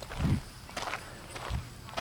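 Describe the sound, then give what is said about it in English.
Footsteps of a person running: a few heavy low thuds with lighter scuffing steps between them, in an uneven stride. “I'm running through the... Okay. I lost my whole rhythm of running and speaking due”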